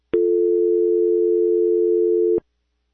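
A telephone tone after a caller hung up: one loud, steady, unbroken tone of about two seconds, bracketed by sharp clicks at its start and end, with no voices.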